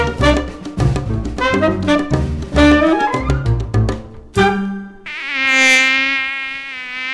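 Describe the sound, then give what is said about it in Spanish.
Mosquito buzzing from the kind of mosquito that spreads dengue: a high, whining drone that swells and holds steady through the final seconds, alone with no voices. “El mosquito que transmite el dengue vive en el agua clara que parece limpia y se junta en las gomas”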